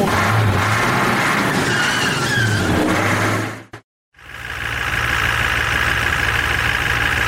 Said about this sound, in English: It is a great honor to be driving so many of my favorite podcasters around. I am going to drive especially quickly as a mark of my respect for their work.